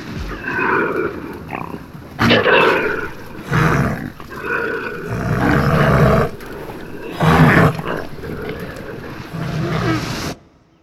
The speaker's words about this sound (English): Or being circled by a whirlwind of wild animals.